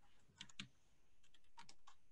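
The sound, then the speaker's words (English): Typing on a computer keyboard gives a few faint, irregular key clicks, some in a quick cluster, over a quiet background. “let me let me type in my locale. Let's say San Francisco.”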